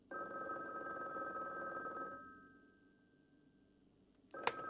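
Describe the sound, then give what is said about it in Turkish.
A telephone ringing with a steady, high electronic ring that carries on for a couple of seconds and then trails off, followed by a sharp click. “Telefonu cevap ver de. Kim olmalı? Alo.”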